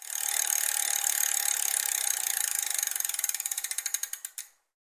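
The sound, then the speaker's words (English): A ratcheting prize wheel spins with a rapid, continuous clatter of clicks that gradually slow and spread apart into distinct ticks before stopping abruptly, with no voices present. “Spin that wheel.”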